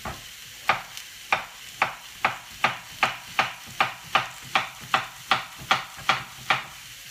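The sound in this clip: Rhythmic chopping as another courgette is prepared for the pan. Many crisp, sharp strikes come in a long, regular run at a brisk, even pace, each with a quick decay.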